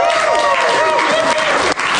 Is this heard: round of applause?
yes